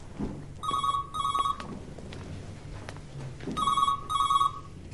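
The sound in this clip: A telephone rings in two pairs of trilling electronic bursts separated by a pause. The ringing is fairly faint over low background noise.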